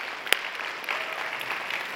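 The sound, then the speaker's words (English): Applause from a church audience welcoming guests at a morning service, a soft, steady patter of many hands held for about two seconds, fairly faint and without voices. “If you're part of the Bridge family, can we put our hands together this morning and welcome all of our guests?”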